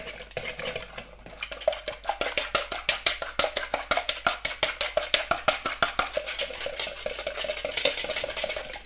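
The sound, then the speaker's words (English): Eggs are whisked for pancake batter, a utensil tapping quickly and evenly against the bowl. Many sharp clicks come in a steady, driving rhythm, with no talking. “This the eggs in. And I think I whisk them.”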